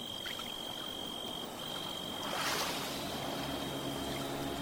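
A boat approaching across water in the dark: a steady low engine drone under broad wash and hiss, swelling noticeably midway and staying loud to the end.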